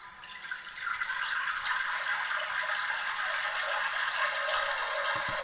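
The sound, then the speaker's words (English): A sink fills with running water as a stock sound effect: a steady, bright rushing hiss that builds over the first second and then holds evenly to the end. “That's a sink filling.”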